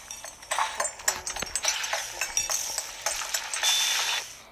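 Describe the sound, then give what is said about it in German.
Clinking chimes from cooking two mushrooms and three apples in a pot in the Breath of the Wild video game, a run of many bright, quick clinks and shimmering bursts at a steady level. “Ich nehme jetzt einfach mal zwei Pilze und drei Äpfel. Und dann können wir zum Kochtopf gehen, da A drücken und.”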